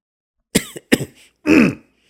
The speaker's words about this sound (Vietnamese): Lão Đăng thấy vậy liền ho lên một tiếng.